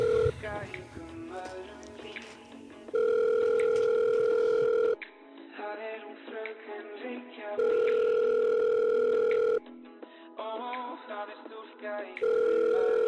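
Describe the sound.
A telephone tone heard while placing a call to a Reykjavík city office: long, steady, even-pitched bursts of about two seconds repeat, alternating with stretches of music.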